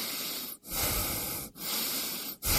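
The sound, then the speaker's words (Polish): Someone breathes heavily on a doctor's instruction, with loud, hissing, airy breaths separated by brief silent gaps. About three breaths come in quick succession, with no voices. “Proszę oddychać.”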